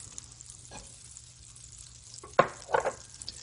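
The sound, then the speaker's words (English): Brown sugar sizzling in melted butter in a pan while making bananas foster French toast: a faint, steady frying hiss with a few louder bursts of sizzle and stirring near the end. “And once that butter is nice and melted, I'm going to add some brown sugar.”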